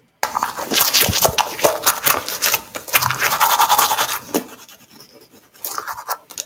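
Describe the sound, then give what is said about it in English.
Teeth being brushed with a toothbrush: rapid, scratchy scrubbing strokes repeat in a busy rhythm, pause briefly, then resume for a few more strokes. “Brush your teeth. Brushing your teeth. Up and down. That's right. Brushing your teeth.”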